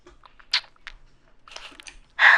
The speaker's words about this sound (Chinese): 在干嘛？吃糖呀。